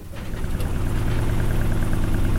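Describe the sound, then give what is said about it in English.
A sailboat's engine running before weighing anchor, giving a low, even mechanical drone that grows slightly at first and then holds steady, with no voices. “All right, got the main up and the engine on. Time to weigh anchor.”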